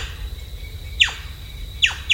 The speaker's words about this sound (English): And other species start moving in. Like the blonde-crested woodpecker.